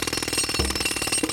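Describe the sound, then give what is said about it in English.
Rapid jackhammer pounding: a loud, dense, unbroken stream of fast hammer blows with a harsh metallic rattle that holds steady throughout. “If quarantine has done a number on your skin, you may be in luck, because that's the sound of Neutrogena's new heavy-duty pore jackhammer,”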